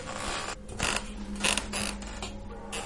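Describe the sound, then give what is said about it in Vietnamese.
A wooden wardrobe door slowly creaks open late at night, giving a series of strained, grinding creaks in several bursts. Each creak swells and fades, fairly loud and alone, with no voices. “chỗ cái tủ quần áo của cô Thao, cánh cửa tủ gỗ khẽ từ từ mở ra, vang lên trong đêm khuya vắng đến rợn cả người.”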